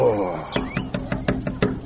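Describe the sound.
Knuckles rap on the wooden door of a hujra, a village guest house, in a rapid, even run of sharp knocks just after a brief voice at the start.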